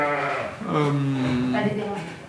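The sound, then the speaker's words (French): Ewes bleat at feeding time: a few drawn-out, wavering bleats overlap one another, fairly loud and sustained throughout. “Alors là on est sur le moment où on va donner à manger aux brebis.”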